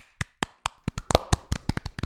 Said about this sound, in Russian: Хлопаем.